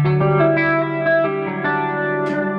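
A guitar chord played through an effects unit set to SDD320 mode, sustained and shimmering with warbling modulation and echo-like repeats, at a steady, fairly loud level.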